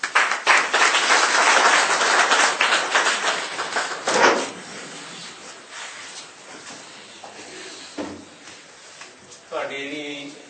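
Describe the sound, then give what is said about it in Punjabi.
Audience applause at the close of a doctor's talk at a literature seminar session: dense, loud clapping for about four seconds, then dying down into quieter scattered sounds. “ਤਾੜੀਆਂ ਦੀ ਆਵਾਜ਼ ਦੱਸਦੇ ਆ ਤੁਸੀਂ, doctor ਸਾਹਿਬ ਨੇ ਇਹਦੀ ਗੱਲ ਤੁਹਾਨੂੰ ਸਾਂਝੀ ਕੀਤੀ ਆ, ਲੱਗਦਾ ਬਹੁਤ ਧਿਆਨ ਨਾਲ ਸੁਣੀ ਆ”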